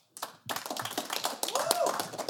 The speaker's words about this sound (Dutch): Nu allereerst een groot applaus voor de experts van vandaag.